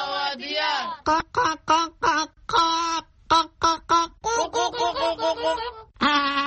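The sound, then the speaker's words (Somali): A voice imitates a young chick's call during a children's bird-sound game, giving many short, nasal, harmonic peeps in quick bursts. The peeps are loud and alone and sound more honking than thin. “Ma taqaanaa dhawaqa shimbirtaasi? Codka digaagad yar.”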